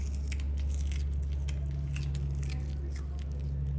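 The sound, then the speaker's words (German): Two sloths at a zoo smacking as they eat uncooked sweet potato sticks, many soft, wet clicks and chewing squelches in quick irregular succession over a steady low hum. “Ja, jetzt sind wir müde und unsere beiden Faultiere, Usti und Charlie, die sind wach und topfit und schmatzen wieder die ganze Zeit so genüsslich.”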